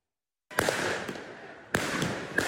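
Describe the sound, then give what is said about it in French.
Firework mortars fired at police during clashes with youths outside a high school: three sharp bangs, each followed by a loud, sustained hissing crackle, with no voices. “Des policiers pris pour cible par des tirs de mortier, de petits projectiles et même par du mobilier urbain.”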